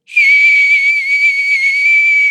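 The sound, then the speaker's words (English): A single loud, shrill whistle starts abruptly and holds a steady high tone for about two seconds with a slight waver, then cuts off. “I apologise to everyone else who was hurt by that loud whistle.”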